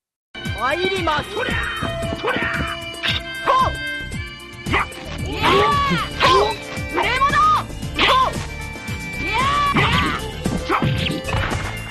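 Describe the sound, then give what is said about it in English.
Gameplay audio from Bushido Blade 2, a Japanese sword-fighting video game: many loud clashing and whacking hits mixed with sharp, pitched vocal cries, dense and continuous throughout. “This is the sequel. This is Bushido Blade 2.”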